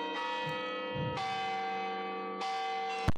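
Church bells ringing in three resonant strikes at a steady interval, each leaving a long, humming ring, ending in a short, sharp burst.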